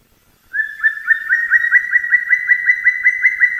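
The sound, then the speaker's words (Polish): Spring call of a black woodpecker in the Beskid Niski mountains: after a brief silence comes a long, even run of many rapid, clear whistled notes at one steady pitch, loud and alone. “To nie jest stuku-puku, tylko taki okrzyk wiosenny dzięcioła czarnego, który słyszałem w zeszłym tygodniu, bo byłem w górach w Beskidzie Niskim”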